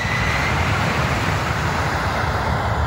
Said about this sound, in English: Now we're seeing the vantage point from the ground, watching this 767 come in for landing on this ice runway.